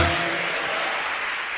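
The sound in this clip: A church audience claps in praise to God, a brief, steady burst of many hands clapping at a fairly loud level.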